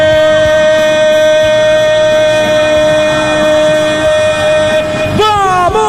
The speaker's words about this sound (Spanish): La de Corea del Sur suena el silbato, da la orden y dice: